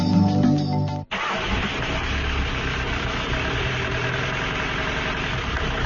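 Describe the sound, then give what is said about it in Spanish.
A car engine runs with a steady, dense rumble and a rough idle; the car has been making a strange noise for days, suspected of lacking the correct oil. A brief tonal sound cuts off just before the engine noise. “Oye, no es por nada, pero tu coche hace un ruido raro, raro. Uf, ya lo sé, lleva así unos días.”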